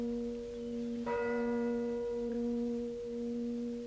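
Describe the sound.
A church bell striking the hour, faint, with one clear bright strike over a sustained humming resonance that rings on steadily.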